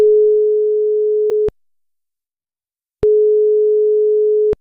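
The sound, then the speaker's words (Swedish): A telephone ringing tone sounds after a number is dialled: two long, steady, pure electronic tones separated by a pause of silence, clear and alone. “Vi ska ta och slå ett nummer.”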